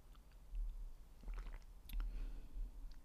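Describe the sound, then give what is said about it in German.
Quiet sipping of an herbal tea with a slight cinnamon note, heard as a few soft, wet slurps and mouth sounds spread across a low steady background. “Und ich koste jetzt live das erste Mal den Harmonietee von Neuners.”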